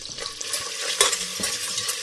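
Melted butter sizzles in a pot while being stirred. A steady, bright hiss fills the short clip, with one sharper clink near the middle.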